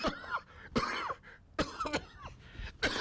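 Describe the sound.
Coughing and choking from a man with a bone stuck in his throat: several harsh, rasping coughing bursts separated by short pauses, with throat-clearing strain, no words spoken.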